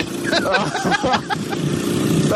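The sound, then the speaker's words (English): A quad bike engine drones steadily while being ridden, rough and continuous beneath a voice that talks throughout. “I'm just doing a bit of quad bike riding with one hand, which is pretty treacherous.”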